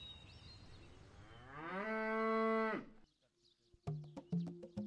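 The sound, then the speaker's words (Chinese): Cattle in a herd mooing before an early-morning feeding. One long, low moo swells in loudness and holds steady before cutting off, followed by a few sharp knocks and clatters. “凌晨4点，保利高就忙碌起来了。出发前，他要让牛群饱餐一顿。”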